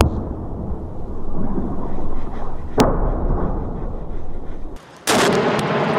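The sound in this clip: Strong explosions in the shelled city of Bakhmut: a sustained low rumble carries through, broken by one sharp blast midway and another loud, harsh burst near the end.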